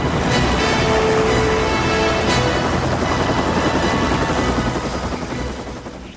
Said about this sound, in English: Christy and Alan watch the helicopter depart.